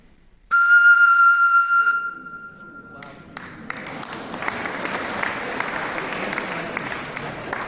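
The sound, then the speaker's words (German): A steady, pure whistling tone from breath blown across the opening of a bottle partly filled with water, holding one pitch for about two and a half seconds before breaking off into a burst of audience applause. “Und wenn ich jetzt hinüberblase, gibt es 2 Möglichkeiten. Entweder ist die erste Reihe nass oder es kommt ein Ton.”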